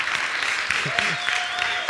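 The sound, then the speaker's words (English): Audience applause during a morning talk: dense, steady clapping throughout, with a voice briefly heard over it partway through. “It's a little sad that that's something to clap about. It is something to clap about today”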